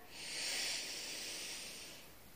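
A soft, deep inhale during a breathing exercise for stress relief, counted to four: one steady, airy breath of about two seconds that swells and then eases off.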